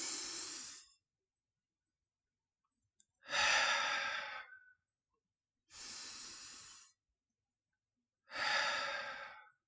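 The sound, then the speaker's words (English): Deep breathing during a relaxation exercise: four long, loud breaths separated by silent pauses, each a breathy, airy rush that swells and then tapers off, with no talking. “Let's woo-sah, woo, woo-sah, woo-sah. Take some deep breaths.”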